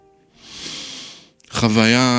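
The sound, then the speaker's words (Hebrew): A single deep breath, a soft airy rush lasting about a second, followed straight away by a voice speaking. “אני לקחתי נשימה עמוקה וזה היה הדרך שלי להעביר את המסר.”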